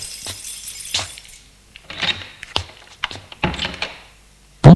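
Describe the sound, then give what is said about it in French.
A farmhouse door being opened: a few scattered clunks, knocks and light rattles, ending with a short, loud thump, with no talk. “Ouvre la porte de la ferme.”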